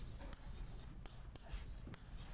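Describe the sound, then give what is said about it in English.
Writing a term on a board during a lecture on futures markets: faint, soft scratching under a low steady hiss, broken by a few sharp little taps. “I should write that term on the board as well. Hedging.”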